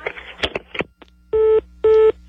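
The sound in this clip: Telephone tones on a phone line during a call: a stretch of talk, then two steady, evenly held electronic beeps of equal length.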